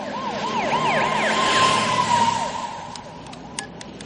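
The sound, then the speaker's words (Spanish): Police car sirens wail as several cars cross a street in front of a church with a large tower, the tone sweeping up and down in steady repeating cycles, loud at first and then fading, with a few short clicks afterward. “Varios coches de policía cruzan una calle ante una iglesia con un gran torreón.”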